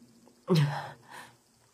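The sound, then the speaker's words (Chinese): A man's sneeze while walking: one sudden, voiced, forceful burst that trails into a softer breathy tail, followed by a short, fainter puff of breath. “公孙又打了个喷嚏”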